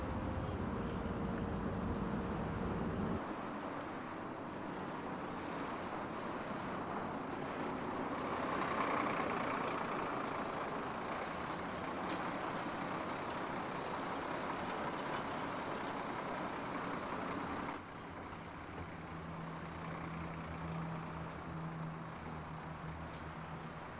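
A bus idles with its engine running, a steady low rumble that holds for the whole stretch and shifts in tone twice along the way.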